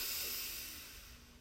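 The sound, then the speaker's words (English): A deep breath drawn in during a tense-and-release relaxation exercise: a soft, airy hiss that is faint and fades slowly over about a second and a half. “take a deep breath in, shoulders up to your ears, deep breath in.”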